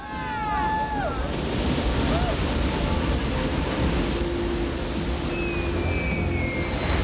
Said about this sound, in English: As the four surfers catch the same towering roller, Utah